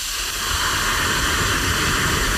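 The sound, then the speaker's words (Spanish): Hot broth poured into a pan of rice, or a pot, sets off a loud, steady sizzling and bubbling hiss that holds evenly throughout, with no voices over it. “Cuando echéis el caldo a la sartén o a la olla, tiene que sonar así.”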